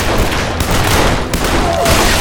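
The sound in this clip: Gunfire in a shootout between outlaws and a man firing a rifle, a loud, dense, unbroken barrage of shots that blend into one continuous crackling roar.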